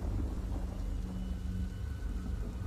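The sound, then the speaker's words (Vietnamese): Heavy rain pours down over a small rural district, a dense, steady hiss of water falling without letup. “Trời vẫn cứ tiếp tục đổ những cơn mưa như trút nước xuống cái huyện nhỏ này”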